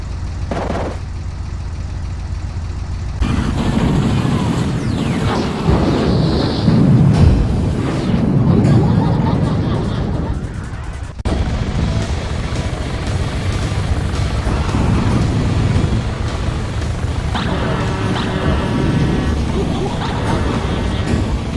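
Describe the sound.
Loud engine roar and dense mechanical noise from the intro of Twisted Metal, a demolition-derby driving video game. It stays heavy throughout, breaks off abruptly near the middle, then resumes with a changed texture toward the end.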